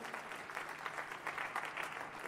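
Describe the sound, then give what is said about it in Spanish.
A church audience applauds during a service: a continuous wash of many hands clapping, fairly faint but steady throughout, with no voices standing out. “Denle un aplauso a Jesús y se puede sentar, por favor.”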